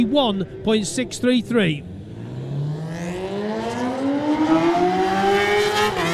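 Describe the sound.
A Suzuki racing motorcycle accelerates away from the start. After a couple of seconds of a commentator talking, its engine note climbs steadily into a loud, rising whine.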